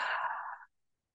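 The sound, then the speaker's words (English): A single soft, airy breath out through the mouth during a guided breathing exercise. It is a gentle, steady exhale lasting under a second that fades into silence, with no talking. “let's just exhale through our mouths. In through the nose. And exhale through the mouth.”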